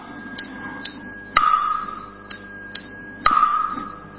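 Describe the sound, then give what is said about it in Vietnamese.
Wooden fish knocks and bell strokes in a Buddhist temple: sharp, dry wooden taps in a repeating pattern, with a ringing metallic bell tone that sustains after some of the knocks, sounding twice across the sequence. “mình nghe có tiếng mỏ, thực ra sau tiếng mỏ nó còn một nhịp nữa”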